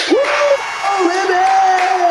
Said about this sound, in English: And so that's why we had to give you such a warm round of applause.